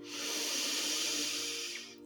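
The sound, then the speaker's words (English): A slow, deep inhale through the nose during a guided meditation: one soft, steady, airy hiss lasting about two seconds, faint and heard alone. “Let's inhale together through the nostrils and exhale from the mouth. Deep inhale, feel the belly.”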